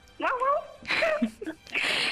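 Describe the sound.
A human voice imitates a dog barking and a car horn together: a few voiced bursts of yelp-like and honking tones in quick succession.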